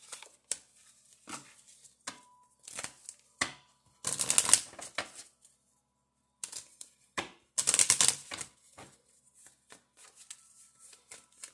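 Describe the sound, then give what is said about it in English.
Angel healing cards are shuffled and drawn: scattered soft taps and clicks, broken by two longer bursts of rapid riffling, quiet and with no talk. “I'm actually going to get a healing card here. One of my angel healing cards.”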